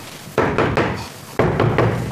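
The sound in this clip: Firm knocking on a door in two bursts of three heavy, hollow thuds each, loud and evenly paced, with a short pause between the groups.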